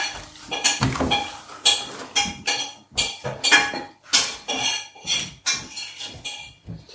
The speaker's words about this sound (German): So, die Zwiebeln tue ich jetzt, jetzt in ein Zwischengefäß.